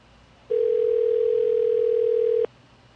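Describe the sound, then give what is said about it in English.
A single steady telephone tone signals a voicemail transfer, holding one flat pitch for about two seconds. It is loud and alone over faint background hiss, with no voices. “I heard a voicemail transfer.”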